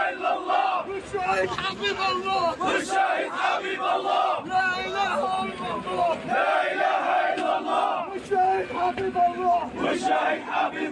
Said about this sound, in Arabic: شيوع جثمان شيرين اليوم وسط هتافات وشعارات بتندد باغتيالها وبقتلها بدم بارد.